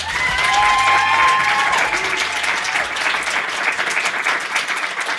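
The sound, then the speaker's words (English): Live studio audience applauding at the Catalyst Con West conference, a dense, continuous patter of many hands with a couple of whoops near the start, loud at first and easing slightly toward the end. “That's my wonderful live studio audience, because this episode is being recorded at Catalyst Con West.”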